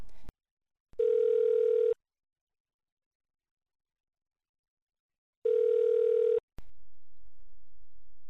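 Two steady electronic beeps from a hotel reservations answering machine, each lasting about a second and separated by a long silence, with soft clicks around them.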